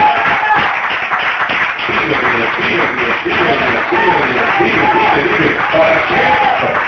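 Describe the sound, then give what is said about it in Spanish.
Congregation applause during a fiery church service: continuous clapping mixed with loud shouts and whoops, sustained without a break over the whole stretch. “Gloria a Dios, dale un aplauso a Jesucristo.”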